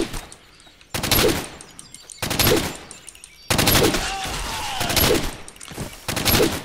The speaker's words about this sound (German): Oh, noch einer mit Maschinengewehr.